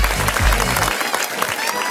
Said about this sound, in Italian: Facciamo un applauso a DJ Tiga. Bravo Tiga.